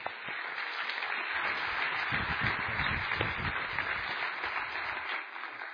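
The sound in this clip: Warm audience applause greets a preacher at a church conference, a soft, even wash of many hands clapping that holds steady for several seconds before tailing off, heard alone without speech.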